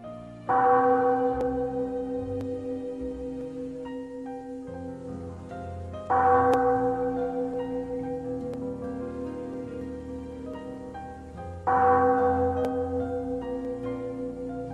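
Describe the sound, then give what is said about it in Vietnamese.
Three loud, resonant strikes of a great bell outside a hall's doors ring about six seconds apart. Each strike has a bright clang and a long humming decay. No one speaks. “ngoài cửa điện bỗng nhiên vang lên một tiếng chuông thật lớn.”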